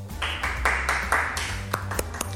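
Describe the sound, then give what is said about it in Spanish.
A brief applause sound effect fired from a radio studio's control desk, a few quick bursts of clapping followed by several sharp, separate claps as it fades. “Se pone aplauso, me parece fantástico.”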